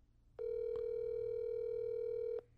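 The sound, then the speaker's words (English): A phone line tone on a call that rings through to voicemail: one steady, continuous electronic tone lasting about two seconds, clear and even, over faint background hiss. “It's going to voicemail.”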